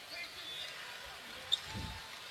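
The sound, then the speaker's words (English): A basketball bounces faintly, a short tap followed by a soft low thud, under steady background noise as Grady Dick prepares to shoot free throws in a Clippers game. “And looks like Grady Dick will be shooting free throws.”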